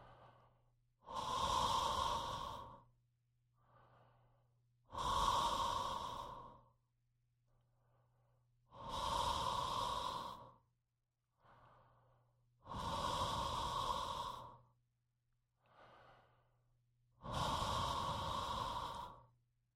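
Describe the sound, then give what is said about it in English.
Five long, breathy open-throat exhalations, each lasting over a second and evenly spaced as a breathing exercise, with fainter short breaths in the gaps between them. “Again, we'll do 5 more open throat breaths. Silent. Open throat wide open. Neck not collapsing. Jaw dropped. Throat open to the sky. Here we go. 5 more.”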